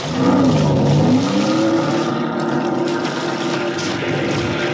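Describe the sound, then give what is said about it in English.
A motorboat with a 230 horsepower Johnson outboard engine gives a loud, continuous roar. Its low droning pitch wavers briefly at first, then holds steady throughout. “That boat of Alex's is the fastest one of the lot. 230 horsepower Johnson's.”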